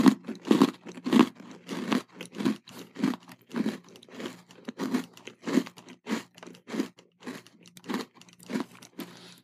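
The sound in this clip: Crunchy bites and chewing of a snack combining two classic flavors, with many quiet crisp crunches in a steady, rhythmic series and no talk.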